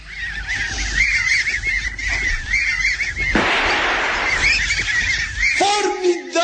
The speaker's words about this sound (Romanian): Cele 10 rațe sălbatici înșelate una după alta? Chiar așa. Să le lăsăm să treacă pe dinaintea noastră.